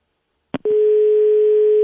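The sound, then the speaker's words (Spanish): Telephone dial tone: a brief click and short burst, then a steady, continuous, loud hum that holds unbroken to the end. “No, vamos a intentar otra vez, porque no dio tono bien de marcar.”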